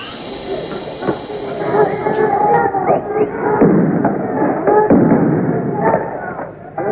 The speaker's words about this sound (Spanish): Escuchan disparos de gases lacrimógenos.